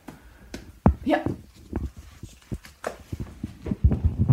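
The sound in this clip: Footsteps of someone walking across a room to fetch a book: a few irregular soft thumps and knocks, with a voice talking over them.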